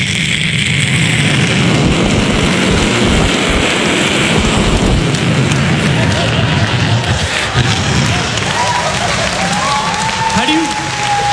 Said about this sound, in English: anyone lives near the airport, you know, this is what you hear, every 2 minutes, 20 seconds.